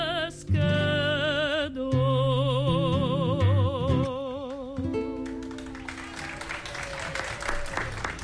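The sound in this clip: Audience applause at a concert after a havanera about a small fishing boat: sung melody with accompaniment gives way to a dense wash of clapping that fills the last few seconds.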